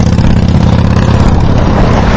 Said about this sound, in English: You can hear the traffic going by.